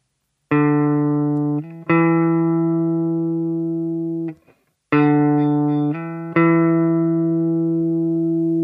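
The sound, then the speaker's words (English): A major second interval sounds twice, each time as two adjacent sustained notes played one after the other. The tones are steady and rich in harmonics, with a short silence between the two pairs. “The next one is 0-2, or the major second.”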